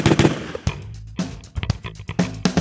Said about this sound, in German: Erster Schuss.